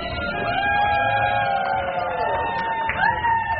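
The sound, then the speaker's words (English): Family and friends cheer as a couple cuts their wedding cake at a historic Virginia manor house, a crowd of whooping, sustained voices with pitched cries that swoop upward near the end. “the Kaufman slice the cake, perfectly intact, to cheers from their family and friends in this audio provided by the venue's event supervisor.”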